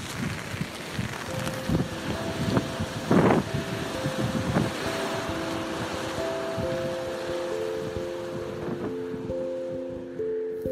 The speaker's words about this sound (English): today it's a little windy and rainy, but this is the sound of that.